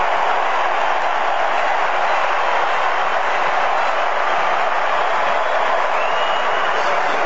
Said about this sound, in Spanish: Así lo recibe el público de Miami, se va Mateus Cunha. Explota el estadio con Neymar en la cancha.